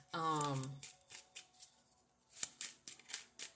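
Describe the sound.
A deck of cards is shuffled by hand in a run of quick, soft riffling bursts, with a brief voice at the start; the whole is faint.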